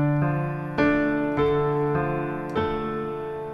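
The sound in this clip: Piano playing the first two measures of a song verse, five notes or chords struck one after another at an even, unhurried pace, each ringing on and slowly decaying into the next.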